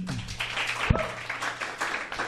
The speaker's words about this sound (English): Thanks a lot to our group. Can you give them a round of applause?